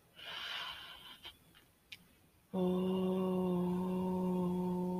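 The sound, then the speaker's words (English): A deep breath drawn in before chanting Om at the close of a yoga session: a breathy inhale rushes for about a second, a few faint clicks follow, then a steady, low hummed Om begins and holds loudly. “take a deep breath in to prepare for Om. Fill it up.”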